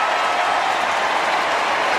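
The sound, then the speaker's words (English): A stadium crowd gives a player a loud ovation at a sports ground, with dense, steady applause holding at an even level from start to finish. “Shown on the big screen, and the applause has gone around the ground. The cheers are up.”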